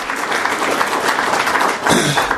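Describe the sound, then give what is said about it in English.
Audience applause at a Chicago forum, a steady, dense patter of many hands clapping that dips briefly near the end and then swells again. “And let's give another round of applause to Ann Burke and all those that were part of that.”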